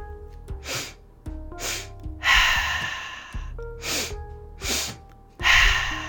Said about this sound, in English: two inhales through the nose, followed by an exhale through the mouth.